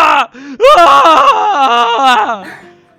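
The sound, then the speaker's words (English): A voice imitates wailing with loud, drawn-out, wavering cries that rise and sag in pitch, ending in a fading moan. “And you look off and you hear just wailing. You hear like,”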